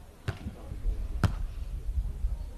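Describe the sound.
Volleyball serve during a match, served by a player on Jinan City team one: two crisp, sharp ball smacks about a second apart, with a voice talking underneath.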